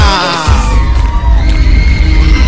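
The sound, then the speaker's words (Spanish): Crowd cheering, whooping and yelling at a lively reggaeton music event, a dense roar of voices over the steady pulse of the music that carries through the whole clip. “¡Un fuerte aplauso!”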